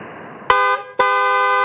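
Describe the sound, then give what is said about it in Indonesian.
Car horn honks on a road in two loud blasts: the first sounds for just under half a second, and after a brief break the second is held steady to the end. “Kok iso lo aku sing diklakson?”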